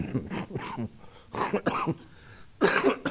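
Coughing from a person with lingering bronchitis: a few harsh, rough bursts break up the sound, and the last and loudest comes near the end.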